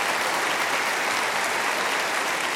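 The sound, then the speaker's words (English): An audience applauds to welcome a guest. The clapping is steady and dense, holding at an even, loud level throughout with no break. “In fact, we could even just give her a hand and welcome her for being here.”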